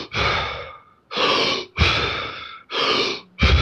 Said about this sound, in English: So what it is basically deep hyperventilation. So it's not panicked hyperventilation, but it looks like